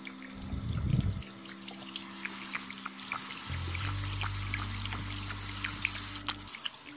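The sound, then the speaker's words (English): Warm tap water runs from a faucet for washing a face, a steady rushing flow with a low hum underneath that shifts in pitch partway through, heard alone without talk. “I won't make the water too hot. There we go.”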